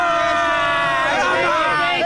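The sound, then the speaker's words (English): England football fans in a crowded Atlanta bar, the Hudson Grill, cheering amid loud chatter: a dense babble of voices with sustained shouts that rise and slide in pitch. “Give us a cheer, guys.”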